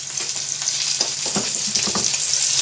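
Burgers sizzling loudly in a frying pan on a stove as they are turned over, a dense steady hiss with a few scraping knocks in the middle as they are flipped.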